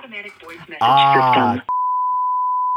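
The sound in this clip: A steady single-pitched phone tone from a phone held up to a microphone, sounding alone and unbroken for about a second right after a stretch of talking.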